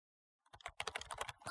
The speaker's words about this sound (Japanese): キーボードを打つ、その手を止めなさい。